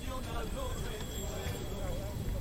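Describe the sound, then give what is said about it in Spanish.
Mules pull a cart in a religious procession escorted by the Guardia Civil, their hooves clip-clopping in a faint, steady patter beneath continuous talk by a voice and a broad background wash. “Y ahí lo tenemos, los ayudantes, el ayudante de carreta y el carretero, para ayudar a que los mulos puedan”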